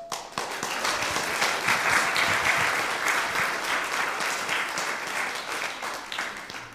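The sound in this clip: Audience applause welcomes a performer dressed as one of the shepherds at a nativity-themed team game event. The clapping is dense and steady, loud and unbroken throughout, with no voices over it.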